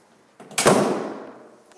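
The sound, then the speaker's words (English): A door is shut hard in a single forceful slam with a sharp onset, followed by a long fading tail. “let me close the door so that way no fish smell gets into here.”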